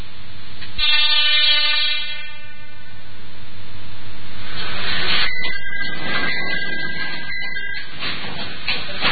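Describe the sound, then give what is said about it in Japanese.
Ichibata Electric Railway train travelling in Shimane Prefecture, with a sustained horn-like tone in the first seconds, then continuous loud running rumble and rattling that swells and stays heavy to the end; no talk. “新作、 はい、島根県の一畑電車の旅、こちらをたっぷりとお届けいたします。ちょっと先出しいたしますので聞いてみましょう。”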